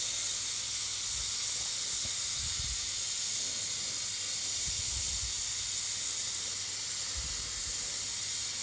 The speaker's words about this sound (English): I guess that's the sputtering that I heard right about.